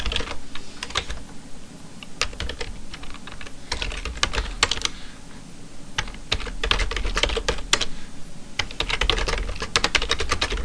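An email is typed on a computer keyboard: many quick, irregular key clicks in bursts, fairly loud and steady throughout, with no voices.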